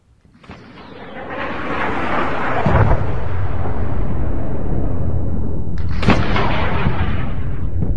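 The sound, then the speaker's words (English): Air defense fire shooting down a Russian MiG-29 in the video game Arma 3 builds into a loud, sustained booming roar, broken by a couple of sharp explosive bursts near the middle and later on. “Russian MiG-29 getting shot down, MSDNC says. Defense system, Arma 3, shorts.”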